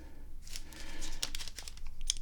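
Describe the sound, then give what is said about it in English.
Paper crinkling and slicing as a letter envelope from a state government is cut open with a knife in a kitchen: faint, with a few crisp rustling and tearing bursts and no talk. “Let's open up the letter from the state government.”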